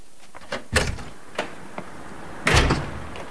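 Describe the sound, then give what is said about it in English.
A glass door being opened: a few light clicks and taps, then a louder clunk and rattle near the end, with no voices. “He opens the door.”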